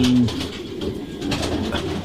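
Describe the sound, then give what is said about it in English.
Pigeons cooing, a short low coo at the start followed by soft murmuring calls over a steady, noisy background. “And I started keeping pigeons again in about 1974 or 5.”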